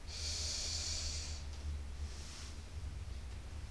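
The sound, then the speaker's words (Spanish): A deep breath in during a guided muscle-relaxation exercise, a steady hissing inhale lasting over a second, followed by a fainter, shorter breath. “inhala”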